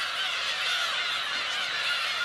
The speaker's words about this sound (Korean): 구지도의 주인은 괭이갈매기였습니다.